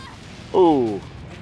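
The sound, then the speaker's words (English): A single ringing zing as a shot deflects off a shield, a harmonic tone that slides down in pitch over about half a second above a faint, steady background. “I like they use the thing to have one of the shots bounce off her shield”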